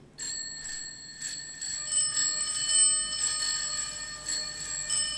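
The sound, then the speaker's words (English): Many ringing bells open a 1980s pop song, bright layered chimes struck again and again in a steady, shimmering wash, with no voices. “It's got an interminable introduction. It is bells. You can't argue with that. It's a lot of bells. Too many bells”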